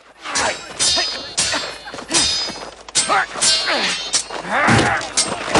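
Swords clashing in sweeping strokes during a fight: many loud, ringing metallic clangs and thwacks in quick, irregular succession.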